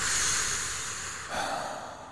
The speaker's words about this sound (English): Take a deep breath. Put oxygen in your brain.